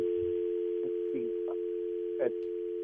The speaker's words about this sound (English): okay, we got a dial tone there. If you can, okay, there it's gone.